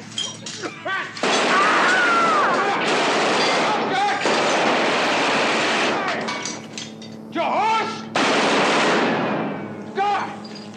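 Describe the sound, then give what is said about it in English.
Machine-gun fire from a crime film shootout, long loud bursts of rapid shots mixed with shattering glass, broken by short pauses where voices shout. “So the guys he was shooting at who weren't currently high probably died from the bullets.”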